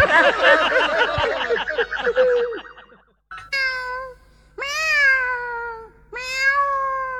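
A cat meows three times in the second half, each meow clear and drawn out. A busier stretch of harmonic sound comes before the meows.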